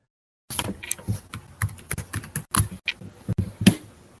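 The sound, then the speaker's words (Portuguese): Computer keyboard keys being pressed, including the enter key, in many sharp clicks at an irregular typing rhythm, each one crisp and fairly loud. “Dá um enter aí para separar o que saiu.”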